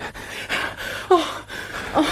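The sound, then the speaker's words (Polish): A woman pants heavily while a man grips her. A few sharp, breathy gasps come in an uneven rhythm over steady low background noise. “Czemu ona tak dyszy?”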